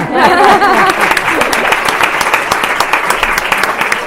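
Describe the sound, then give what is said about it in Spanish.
An audience at a vocational training fair applauds with dense, lively clapping. A voice is heard briefly at the start before the applause continues evenly. “Así que muchísimas gracias a todos los componentes de la mesa. A ti. Un aplauso si”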